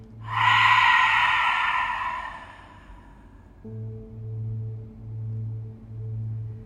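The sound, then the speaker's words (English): A deep meditation breath in through the nose and out through the mouth makes one long, loud, airy rush that gradually fades. A soft, pulsing low tone follows. “Take a deep inhale from the nose, expand from the belly, breathe to the top. Open your mouth, exhale from the mouth.”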